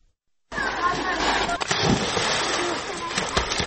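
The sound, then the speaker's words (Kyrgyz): Children splashing while swimming in a canal running through a town: continuous churning, sloshing water with scattered sharper splashes and voices mixed in. “Облус борбору Баткен шаарын аралап өткөн каналда минтип эрте мененки саат 10:00 баштап күн батканга чейин толтура чыт курсак сууга түшүп жатканы көндүм көрүнүш.”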